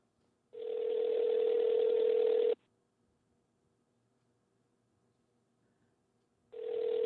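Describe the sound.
Telephone ringing tone heard while a call is placed: a steady, buzzy electronic tone in timed bursts. One burst lasts about two seconds, followed by a long silence, then a second burst begins at the very end.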